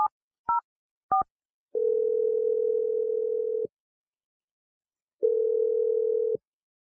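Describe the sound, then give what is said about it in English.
Phone tones while calling a number: a few short, high keypad beeps, then two long, steady low ringing tones separated by a silent pause. “So let's just dial the number right now. Here we go.”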